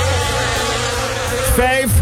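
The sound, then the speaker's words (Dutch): A swarm of about 5,000 bees buzzes inside a car left with its windows open at a garage, a steady, dense drone that holds evenly throughout. “5.000 bijen. Nee. Dus niet 10, niet 20, 5.000 bijen.”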